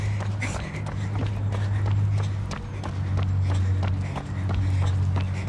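Running strides thud in a quick, even rhythm of many footfalls, steady and moderately loud over a low, constant background hum.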